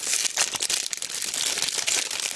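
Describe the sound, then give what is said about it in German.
A crinkly, aroma-sealed package of 40 tea bags is being pried open, giving a loud, continuous crackling and rustling of plastic wrap with dense, irregular crinkles throughout. “Aroma verschweißt, 40 Teebeutel und ich kann nicht anders. Ich muss das jetzt öffnen. Es raschelt sehr, es tut mir leid. Moment, ich öffne das jetzt”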